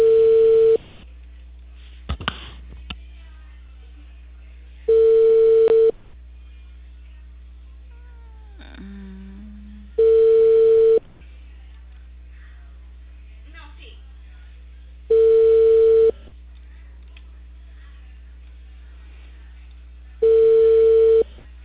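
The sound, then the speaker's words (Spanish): Ringback tone of an outgoing call to a customer in Peru: a steady mid-pitched tone sounds for about a second, then pauses, repeating every five seconds, with four clear rings over faint background hum. “Ahí ya estoy llamando.”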